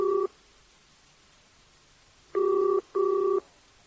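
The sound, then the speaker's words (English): A telephone ringing tone sounds through the receiver of a public phone booth as a number is dialed. Two loud, steady double-pitched bursts stand clearly apart after a long silent pause, following a short tail of ring at the very start. “I dialed a number and listened to it ring and ring and ring.”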